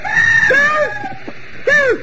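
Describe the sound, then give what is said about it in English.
Screaming from a downstairs room in a radio drama murder mystery, a loud, shrill, wavering cry held for about a second, then a second sharp scream after a short gap. “That scream wasn't upstairs. It was right down here in Andre Sunning's room.”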